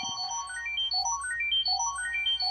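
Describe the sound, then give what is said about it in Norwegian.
Electronic time machine sound effect: bright synthetic tones climb in quick stepwise runs that repeat over and over, steady and fairly loud, with no voices. “Nå er tidsmaskintid, da. Tidsmaskin. Tidsmaskin.”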